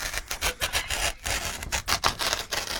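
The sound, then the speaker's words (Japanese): A newspaper is torn up over and over, making many rough, rasping ripping bursts in quick succession. “破るの財前教授側なのよ。自分の訴訟の新聞。 そうなんだ。 わけわかんないけど。 破っちゃったよ、めっちゃ。”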